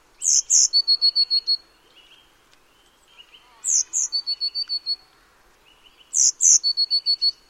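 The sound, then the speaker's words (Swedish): Blue tit song in three loud, separated phrases. Each phrase opens with a couple of high, sharp notes and runs into a rapid trill of about six even, repeated notes, with quiet pauses between phrases. “Nu får ni lyssna på blåmesen redan innan här, så behöver ni inte gissa.”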